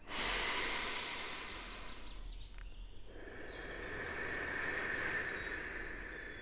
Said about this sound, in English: I want you to take a deep breath in and a big breath out.